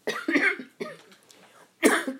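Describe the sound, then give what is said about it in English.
A person coughing in a few harsh separate bursts, with a quieter gap before a final loud cough; no talk around it. “Excuse me. All of my recordings have me coughing.”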